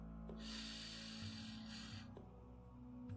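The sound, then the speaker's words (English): A person takes a slow, soft breath in during a guided breathing exercise. The airy inhale lasts nearly two seconds over a low, steady hum, and the whole clip stays faint. “Breathe together with me. In.”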